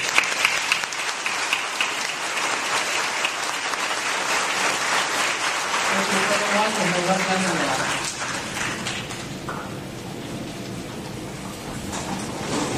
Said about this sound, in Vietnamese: chào đón nhau với một tràng pháo tay.